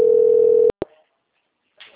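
A telephone ringback tone sounds while a call connects. It is a steady, loud single tone that cuts off abruptly, followed by two sharp clicks and then a faint burst of noise.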